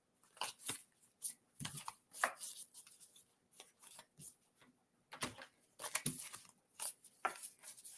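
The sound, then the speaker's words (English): Playing cards handled and drawn from a deck, a quiet run of dry, papery flicks, slides and rustles coming in many short bursts with brief pauses, no voices over them. “let me pull a card for you.”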